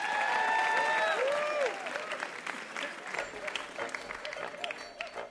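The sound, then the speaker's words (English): An audience applauds the contestants of a puzzle quiz show with steady, dense clapping throughout, while a man's voice speaks over the opening. “Give them a hand, our contestants.”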